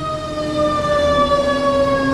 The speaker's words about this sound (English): Oh, it's a fire truck.